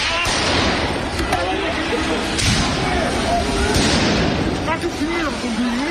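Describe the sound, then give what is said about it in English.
Police firing tear gas at protesters in central Paris, heard as a few dull, sharp pops scattered through loud, continuous crowd noise and voices. “This was a scene in the centre of Paris today. You can hear the sound of police firing tear gas to clear protesters.”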